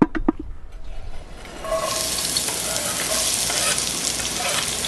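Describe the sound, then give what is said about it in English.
Cholla buds sauté in olive oil with onions and garlic, giving a steady, loud sizzling hiss that starts after a few light clicks and a quieter opening, then holds evenly to the end. “sautéing cholla buds with olive oil, onions, and garlic, a cooking demonstration”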